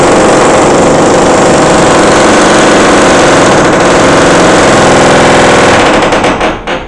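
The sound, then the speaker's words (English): Power drill running in an upstairs apartment: a loud, continuous whirring and rattling drone that holds steady for about six seconds, then tails off at the end. “there's a little bit of drilling going on in the apartment upstairs”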